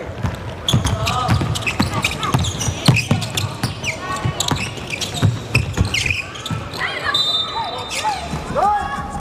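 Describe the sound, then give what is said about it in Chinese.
A basketball being dribbled on a court during a game, with repeated bouncing thuds and high squeaks mixed under steady talk. “两次运球了”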